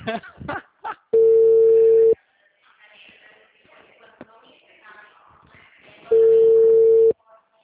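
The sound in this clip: Two steady, mid-pitched telephone tones, each lasting about a second, as an auto-dialer cuts off a call to a blacklisted number, with quiet talk in the gap between them.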